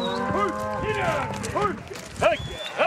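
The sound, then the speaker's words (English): Hundreds of cows, mostly mothers with new calves, moo as a Wyoming ranch herd is moved at dawn toward summer pasture. Many overlapping calls of varied pitch rise and fall over a steady low background. “I'm trying to help Wyoming rancher Albert Summers and his team move hundreds of cows”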